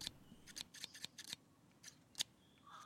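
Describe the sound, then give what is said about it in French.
Pruning shears snipping through invasive plant stems during clearing work, a quick, irregular series of faint, crisp metallic clicks and snaps, with a short pause before the last louder cuts. “Passe-moi le sécateur, s'il te plaît. C'est difficile à couper avec ça.”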